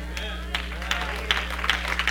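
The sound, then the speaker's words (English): A church audience clapping, with a few scattered hand claps rising over a preacher's speaking voice and a steady low hum. “Now, are you just clapping your hands because you feel bad?”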